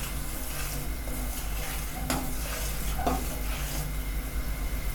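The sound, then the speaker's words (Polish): Food fries in a pan on a gas stove while being stirred, a steady low sizzle with a couple of brief utensil clinks against the pan. “Trochę to zamieszam.”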